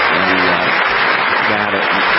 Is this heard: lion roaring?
no